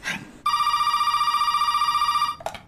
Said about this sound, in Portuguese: Socorro! Eu vou ligar pra polícia! Pra polícia!